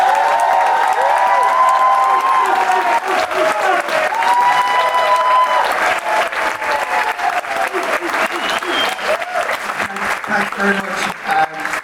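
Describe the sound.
Loud, sustained audience applause mixed with cheering, welcoming a wedding photographer to the stage for his final talk. Dense clapping continues unbroken for about twelve seconds.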